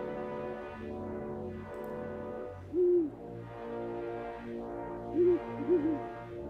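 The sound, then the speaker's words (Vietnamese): An owl hoots at night: three soft, low, rounded hoots spaced apart, sounding over a steady droning background with slowly sweeping tones. “vẳng đâu đó có tiếng cú kêu trong đêm tối.”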